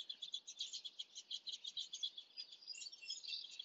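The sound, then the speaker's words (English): Birds singing outdoors: a dense, continuous run of rapid high chirps and trills that varies slightly in loudness, with no talking. “spend some time listening to these beautiful bird sounds.”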